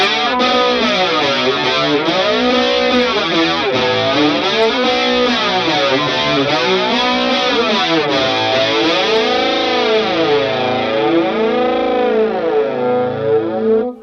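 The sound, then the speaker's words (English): Fuzzy flanger guitar tone from an Analoger AFG1 pedal by Asheville Music Tools, sustained distorted notes swept by slow, repeating jet-like whooshes that rise and fall in cycles, loud and steady before cutting off at the end. “Flange is such a character. Like, yeah. It's such a weird sound. I've loved it. Oh, like I've really fallen in love with Flanger. And this is like the analoger AFG1. By Asheville Music Tools.”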